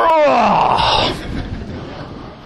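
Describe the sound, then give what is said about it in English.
A voice imitates a groan on waking in the morning, a loud, drawn-out moan that sinks in pitch and fades into breathy noise. “Notice, even we ourselves do what? Groan where? You wake up in the morning, and this is what you verbalize.”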